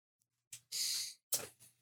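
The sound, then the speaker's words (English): A slow, deep breath during a guided breathing exercise: a long, airy inhale followed by a softer exhale, quiet and alone. “we're going to go ahead and take a nice deep breath in”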